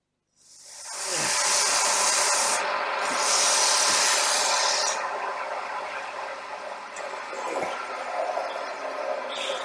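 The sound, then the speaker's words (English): Wood lathe turning ash stove wood in a basement gives a loud, steady abrasive hiss and rubbing that starts after a moment of silence and holds continuous, shifting slightly in tone. “There are ash stove lengths in the woodpile. You can use my dad's lathe down in the basement.”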